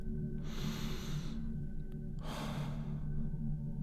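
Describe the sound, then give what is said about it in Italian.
A deep breath is taken, heard as two long, airy rushes of breath about a second apart. Both are quiet and soft, with nothing else around them. “Prendo un bel respiro”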